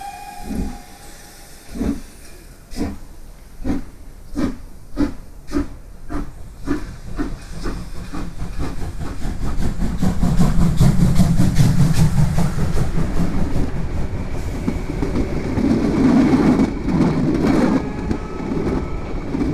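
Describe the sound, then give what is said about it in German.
A steam train bound for Dover pulls away, its exhaust chuffs starting slow and evenly spaced and quickening until they merge into a continuous loud rush of hissing steam and rolling rumble. “Und um 9:15 setzte sich der Zug in Bewegung.”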